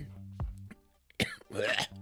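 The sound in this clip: Throat clearing from a man after a bug flew into his throat in his office: a short harsh burst followed by a longer rasping clear, over a low steady hum.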